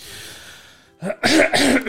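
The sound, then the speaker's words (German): A person clears their throat: a faint fading hiss gives way to a short rough burst, then a longer, louder raspy rumble with a final catch at the end. “Ich muss mir kurz räuspern.”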